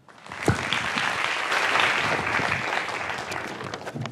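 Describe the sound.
Audience applause welcoming writer Evgeny Morozov to a talk on internet freedom, rising quickly from quiet into dense, steady clapping that holds strong to the end.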